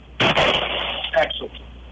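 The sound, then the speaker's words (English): A single loud, sharp gunshot from a fired gun bursts out early, with people talking just after the blast. “Thumb forward. Squeeze trigger straight back. Excellent. Wow. Hell of a shot. Heard that one.”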